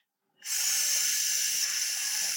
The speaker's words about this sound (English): A quiet hiss from the universe could be what we need to reveal the secrets of our cosmic dawn.